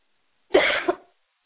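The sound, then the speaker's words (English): A cough during a deliverance prayer: one harsh, loud burst of about half a second, with a short second push at its end, heard alone without talk. “And now you just take a deep breath and cough them out.”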